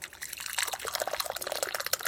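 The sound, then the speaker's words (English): Tea, a blend of Assam and Lapsang Souchong, being poured out in a steady, bubbling trickle with small splashes. The flow is quiet and continuous. “Now, I can't reach the tea from where I am. It's all right. Would you mind pouring it out?”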